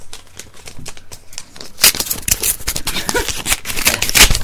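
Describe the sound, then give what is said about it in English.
Paper crinkling and tearing as a birthday greeting card is opened, many crisp rustling crackles that grow louder and busier after the first couple of seconds. “I'll open the card first.”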